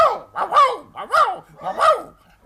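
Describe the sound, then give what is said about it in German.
A dog barks in a rhythmic short-long pattern, like iambs. There are a few pairs of barks, each a quick yelp followed by a longer, louder bark, with short pauses between the pairs. “Und jetzt bellt der Hund in Jamben.”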